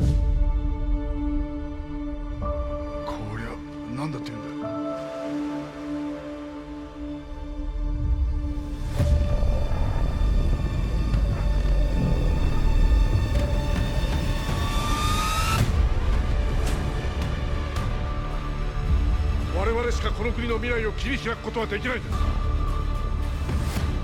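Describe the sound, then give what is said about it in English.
The trailer for the film Godzilla Minus One plays: dramatic music with sustained tones, deep rumbling and whooshes, and a sweeping rise midway, with voices speaking over parts of it. “you were just listening to the trailer for Godzilla Minus One”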